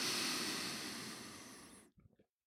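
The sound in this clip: A long, deep inhale during a guided breathwork exercise, a steady airy rush lasting nearly two seconds that slowly tapers before a few brief, soft sounds. Faint overall, with no talk.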